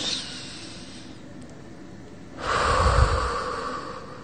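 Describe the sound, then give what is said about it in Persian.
A deep breath drawn in during a calming exercise for exam stress: after a quiet, hissy lull, a long airy rush of inhaled air lasting about two seconds. “اولین راهکار اینه که نفس عمیق بکشی. به قول معروف، دم عمیق،”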